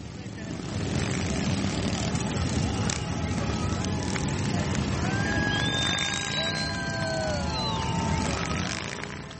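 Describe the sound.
Rolling Thunder motorcycles riding around Washington DC: a continuous, dense engine roar with whining tones that sweep up and down as machines pass, loud and unbroken.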